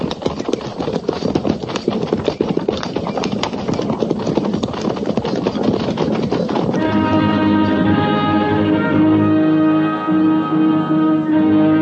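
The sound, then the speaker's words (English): Horses trot with a rapid, continuous clip-clop of hooves as a cavalry company moves out along a trail. Many loud, closely spaced strikes fill the first half, and steady tonal sounds join the hoofbeats later on. “At the trot! Ho!”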